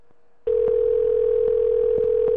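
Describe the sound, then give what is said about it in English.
A telephone dial tone starts abruptly after a moment of near-silence, then holds as a loud, steady, unbroken hum with a few faint clicks. “Did I mute that number? Or did it just dial without muting it?”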